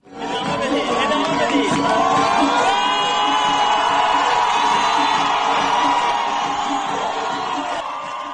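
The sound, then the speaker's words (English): Loud cheering, whooping and shouting from a protest crowd at an Iranian cultural festival in Milad Tower, Tehran, as women wave their removed headscarves and dance. The dense roar of voices is sustained throughout. “organizers of an Iranian cultural festival in Tehran's landmark Milad Tower literally turned off the lights to hide the fact women were taking off their headscarves, waving them in the air, dancing. You can still hear it, though, even if you can't see it.”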